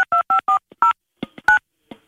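Touch-tone telephone beeps as a number is dialed: a quick, uneven series of short, loud dual-pitched tones with small clicks between them, heard alone.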